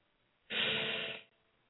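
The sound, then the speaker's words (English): A single deep inhale by a person during a guided relaxation breathing exercise: a steady, soft, breathy rush lasting under a second, heard alone with no talk. “Take deep breaths in. I want you to inhale.”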